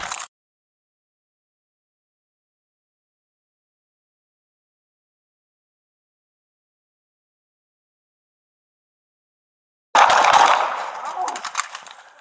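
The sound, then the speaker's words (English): Gunfire erupts during a police confrontation: a short sharp burst right at the start, then long silence, then a loud, dense crackling volley of shots that carries on to the end. “Shots fired. Shots fired.”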